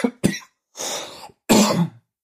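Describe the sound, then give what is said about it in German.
Several harsh, throaty coughs come in separate bursts with short silences between them. One is longer and raspier, like a rough hack or throat clearing. “Vielleicht solltest du mal was nehmen bei dem Husten.”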